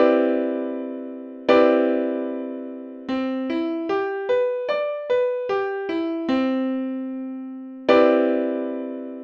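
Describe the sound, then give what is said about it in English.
A major ninth chord on a struck, keyboard-like instrument is sounded twice as a block and rings out. Its notes are then played one at a time, rising and then falling, before a final full chord decays cleanly. “The major ninth is just like a major seventh chord with a ninth added on top of it. It sounds like this.”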